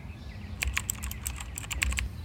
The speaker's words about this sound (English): I typed in the name of the apartment complex where I live.